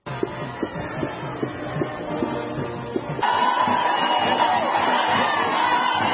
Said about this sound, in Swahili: kama unavyosikia hizo nderemo, ni furaha tupu inaoelezwa na Wamsumbiji waliojitokeza kumpokea Papa Francis jana usiku